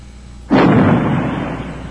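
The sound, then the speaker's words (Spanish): A heavy naval cannon blast from a night battle against an ironclad warship: one sudden booming report, then a loud, sustained rumbling roar that slowly fades. “Vuestras granadas no causan efecto en el blindado. Pero hay que seguir disparando. ¡Fuego! ¡Fuego!”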